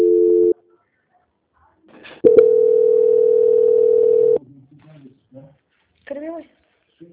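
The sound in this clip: Telephone call transfer tones: a short tone, then after a pause a long, steady mid-pitched tone lasting about two seconds, followed by brief faint voice fragments on the line.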